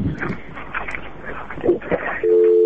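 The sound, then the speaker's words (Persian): A busy tone sounds on a phone line after a listener's call drops: a loud, steady, unbroken tone cuts in near the end, following a stretch of muffled talk and line noise. “نه تماس از این شنونده ما متاسفانه قطع شدم”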